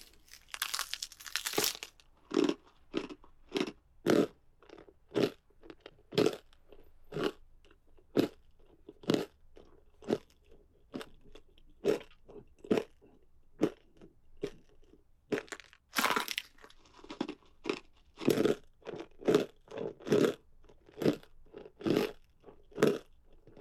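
Biting and chewing through a two-boned elbow produces many loud, sharp crunches in a steady, uneven rhythm, with brief crinkling tears between bites and no voices.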